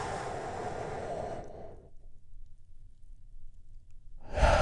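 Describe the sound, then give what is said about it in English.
A big, deep breath taken together during a guided relaxation exercise: a long, loud, airy rush of breath lasting about two seconds, then a quiet pause before another breath starts. “And we do that by taking a great, big, deep, healing breath all together.”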